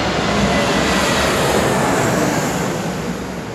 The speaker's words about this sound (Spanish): Va pasando un avión para despedirnos.